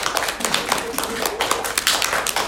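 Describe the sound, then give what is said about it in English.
A hand patting down the opposite arm during a lymphatic self-massage gives many quick, evenly spaced slaps like light clapping, going on throughout beneath a speaking voice. “And then we're going to take with our right hand and pat down the left arm till you get your hands and you're clapping like a seal.”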